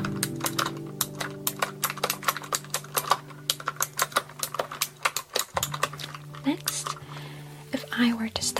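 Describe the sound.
Clicky computer keyboard typing: many rapid, uneven keystrokes clack in quick bursts with short pauses between them. Soft whispering can be heard at points under the clatter.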